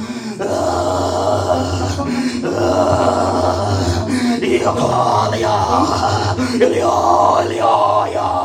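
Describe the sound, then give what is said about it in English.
Loud, sustained groaning in the spirit during prayer, a deep, tonal voiced moaning that runs almost unbroken, with a few brief dips between long drawn-out groans. “Groaning in the spirit is not speaking in tongues. Groaning in the spirit. Sometimes when you see me praying, I get to a dimension and all you hear is”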